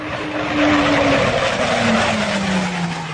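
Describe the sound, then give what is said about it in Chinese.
Loud, steady roar of J-20 fighter jets taking off for an air combat exercise, with a broad rushing noise and a whining tone that slowly falls in pitch throughout, with no voices. “飞行员胡浩宇和战友们驾驶歼20战机加速升空”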